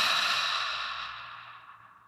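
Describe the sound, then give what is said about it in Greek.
A deep breath in through the nose and out through the mouth during guided meditation, heard as one long, airy exhale that gradually fades away. “Και τώρα ας πάρουμε τρεις βαθιές αναπνοές. Βαθιά εισπνοή από τη μύτη, εκπνοή από το στόμα.”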